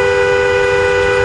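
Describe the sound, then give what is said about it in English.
A car horn heard from inside a car blares as one loud, unbroken, steady tone for the whole moment, with no pause or change in pitch. “And speaking of volume, this is the sound of a car horn from inside a car.”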